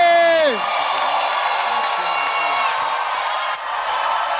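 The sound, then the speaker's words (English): A church audience cheers and shouts to welcome a bishop to the pulpit: a loud, sustained roar of crowd noise, opened by a whooping voice that slides down in pitch. “If you're excited as I am, make some Holy Ghost noise as we welcome to the pulpit, Bishop Richard Aye.”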